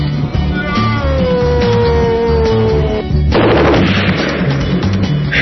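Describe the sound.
Rapid gunfire in a video game ending in a headshot: a dense run of sharp shots with a louder, fuller burst partway through, over a steady low tonal hum.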